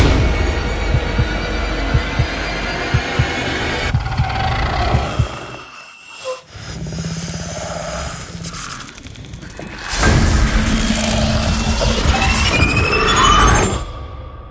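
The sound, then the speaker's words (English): Trailer audio for the film A Quiet Place: tense, throbbing heartbeat-like pulses over a low mechanical hum, falling to near silence midway before a loud swell returns. “That should have been some of the trailer for A Quiet Place.”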